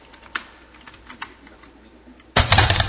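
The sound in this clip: Computer keyboard keys pressed for an Alt-I shortcut in Excel: a few sharp, light clicks spaced apart, then a louder, denser burst of key noise near the end, with no talk.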